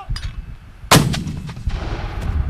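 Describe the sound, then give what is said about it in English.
A mortar firing on an army firing range at Fort Lewis, Washington: a single loud, sharp boom with a rumbling tail, preceded by faint low rumbling. “he directs a mortar team at the edge of a firing range at Fort Lewis, Washington, south of Seattle.”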